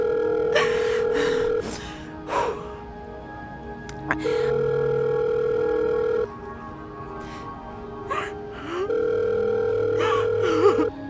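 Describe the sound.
Telephone line tone on an outgoing call: a steady mid-pitched beep comes in three long stretches separated by pauses. A lower tone and brief faint clicks sound between them.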